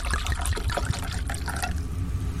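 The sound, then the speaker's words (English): A Capri Sun Pacific Cooler drink pouch being opened and poured produces a continuous gurgling trickle of liquid with small splashy bubbling bursts that fade out toward the end, with no speech. “Crack open a cold one.”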